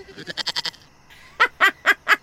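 Goat bleating for a horned, goat-headed creature: a quick run of short, stuttering bleats, then a pause and four louder, drawn-out bleats in an even rhythm.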